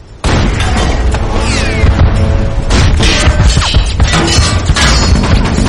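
Heavy gunfire from a ship's deck guns firing at a surfacing German U-boat: a loud, dense barrage of booms and crashing blasts that goes on without a break for several seconds.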